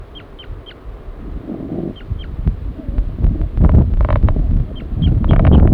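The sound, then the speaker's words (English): Brief, high chirping flight calls from a male bird as it leaves its nest, coming in a few quick clusters of short notes over a low, rumbling background noise. “Male? Giving flight calls? Coming off the nest.”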